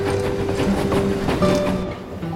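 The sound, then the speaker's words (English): A passenger train rolls along the tracks through countryside, heard from inside a crowded cabin as a steady, loud rolling rumble with faint rhythmic clatter and a few low hums running throughout. “An older Jiro gazes from under a white hat at the rich countryside, gliding past his train window”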